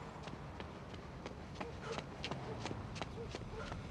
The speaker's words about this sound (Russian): Ее черно-белые кроссовки ритмично отбивают шаги по тротуару.